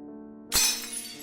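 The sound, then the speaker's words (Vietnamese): Bowls smash in a kitchen: one sudden, loud shattering crash that trails into a brief clattering ring-out after a quiet moment. “Bà Hoáng chưa nói hết câu thì ở dưới bếp truyền lên một tiếng hét, kèm theo tiếng bát vỡ loảng xoảng”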